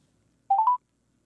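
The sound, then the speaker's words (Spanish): Telephone keypad tones while redialing a call: a quick run of a few clear, bright DTMF beeps, each with a shifting pitch, heard alone after near silence. “A ver, vamos a volver a marcar a nuestra compañera.”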